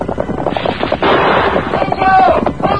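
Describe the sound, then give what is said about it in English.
Revolver gunshots from a masked rider's Colts, fired during a horseback chase, burst out as loud, harsh cracks amid dense, busy action noise, with the sound swelling sharply about a third of the way in and again later. “An answering shot from the masked man's Colts broke the chief's gun stock.”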